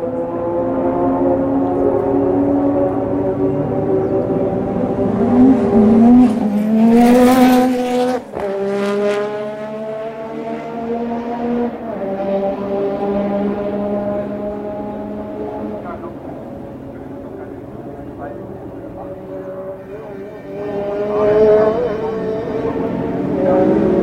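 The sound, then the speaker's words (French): Formula 1 race cars pass with cold engines, their loud, buzzing whine rich in harmonics and sliding up and down in pitch over a few passes, with one sharp roaring burst partway through. “Passage plus ou moins rapide avec des moteurs froids.”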